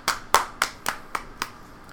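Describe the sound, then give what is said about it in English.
Hands clapping in six sharp, evenly spaced claps at a steady rhythm, loud and crisp with no voices. “And they clap. And everyone applauds. They clap.”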